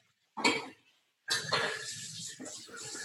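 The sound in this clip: A knife and dishes are handled at a kitchen sink. A brief clatter comes first, then after a short pause a longer stretch of clinking and scraping, all fairly faint.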